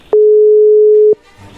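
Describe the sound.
A telephone tone sounds while a call is being placed: one steady, clear tone lasting about a second, alone, followed by faint low noise.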